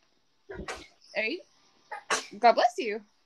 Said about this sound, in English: God bless you. Cover your mouth.